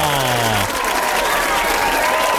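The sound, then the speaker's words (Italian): Studio audience applause on an entertainment show: thick, sustained clapping from a large crowd that holds a steady level throughout, with a brief tonal sound fading out in the first moments. “Vai, vai con gli applausi, vai con gli applausi. Ma perché sempre applausi spenti? Datemi qualcosa di più, di più, di più.”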